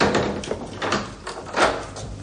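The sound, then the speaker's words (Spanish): A door is opened to let a visitor in, giving a few muffled knocks, thumps and rustles spread over two seconds, soft and dull, with no voices. “abre la puerta a su consuegro”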